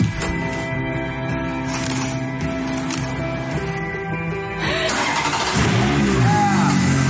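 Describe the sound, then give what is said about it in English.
A red Ferrari's car engine hums at a steady idle, then grows louder partway through and revs with rising pitch as the car starts to drive off. “we're going to pick a car, like maybe this super red Ferrari, and you and I are going to go for a drive.”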